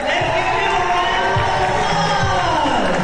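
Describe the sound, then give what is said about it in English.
Middle school students cheering each other on at J.H. Phillips Academy in Birmingham during a creative showcase event. Loud, continuous young voices shout and cheer together without a break. “Middle school students cheered each other on inside J.H. Phillips Academy in downtown Birmingham.”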